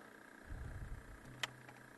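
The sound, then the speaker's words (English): A faint, steady motor whir settles in as a low hum partway through, preceded by soft low rumbling and a single sharp click. “I hear the whir of a motor. That doesn't sound good.”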